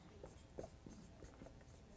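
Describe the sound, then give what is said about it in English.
Writing on a board produces very faint scratchy strokes, a few short marks spaced irregularly over two seconds. “In fact, I'll write this on the board.”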